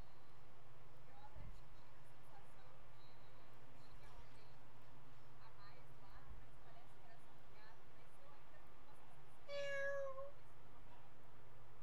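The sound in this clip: A cat lets out one short, clear meow near the end, standing out above a steady, noisy background hum.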